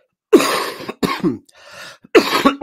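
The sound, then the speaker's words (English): A person coughing: a few harsh, rasping bursts in close succession, with a softer one in between, heard alone with no talk. “I haven't coughed one time this morning. I start talking to you and I start coughing.”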